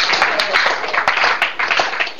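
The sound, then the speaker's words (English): Church audience clapping, a dense and steady burst of hands that stays loud and continuous for about two seconds. “Give Jesus a clap offering.”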